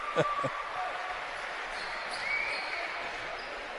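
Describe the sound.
A basketball bounces on a gym court during a Cookeville versus Stewarts Creek high school game: a couple of sharp thuds at the start, then crowd murmur under commentary.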